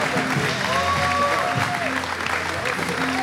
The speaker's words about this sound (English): So can we, Melbourne and Sunny Coast, stand to our feet and put our hands together?